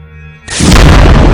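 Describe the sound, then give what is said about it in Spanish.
A shotgun blast bursts out suddenly, loud and booming, after a quiet humming tone, and its broad roar carries on to the end. “El tiro se lo pegué con la escopeta de mi sobrino el Mauro.”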